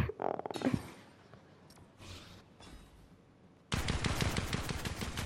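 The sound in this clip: Gunfire from a new weapon in the video game Fortnite: a short, rapid burst at the start, scattered quieter game sounds, then a sustained string of fast, sharp shots near the end.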